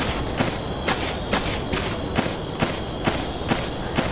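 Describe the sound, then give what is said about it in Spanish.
Crickets chirp at night in a video game's fishing village. Their steady, high-pitched drone runs throughout, while regular footsteps thud beneath it at an even walking pace. “Está de noche. Cuando hace este sonido de grillos es porque”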